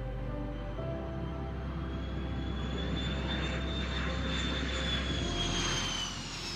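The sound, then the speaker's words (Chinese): A jet airliner taxiing at Haneda Airport: a steady, loud engine roar with a low rumble beneath a high whine that climbs slowly in pitch. “到了6点12分的时候，123号班机终于从羽田机场开始滑行，准备飞向天空。”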